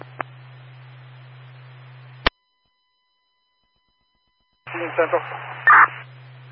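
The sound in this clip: Dispatch radio static: a low hiss over a steady low hum, cut by a sharp click, then a gap of silence before a voice comes through over the hum again.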